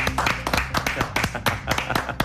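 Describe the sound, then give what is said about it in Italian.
Applause on an Italian talk show: many hands clap in quick, dense, uneven bursts, loud and continuous throughout, with faint voices mixed in. “Applauso.”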